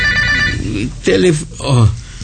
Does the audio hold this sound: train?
no